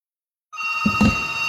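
A telephone rings for an incoming call, a steady electronic ringing tone that starts abruptly about a third of the way in and holds loud and even to the end, with a few soft low thumps beneath it.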